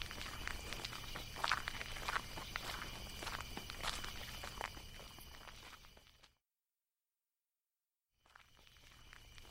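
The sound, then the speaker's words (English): Footsteps of someone walking: a steady series of soft, crisp steps over a low background hiss for about six seconds, then a couple of seconds of silence before faint ambience returns. “Well, looks like I'm walking.”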